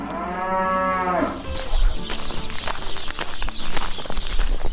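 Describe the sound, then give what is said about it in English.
Young dairy heifers, all female and under five months old, mooing on a farm in southern Wisconsin: one long, loud, low moo, followed by shuffling hooves and rustling movement with no talk. “These are our little babies. These are all less than 4 or 5 months old. They're all heifers, so they're all female.”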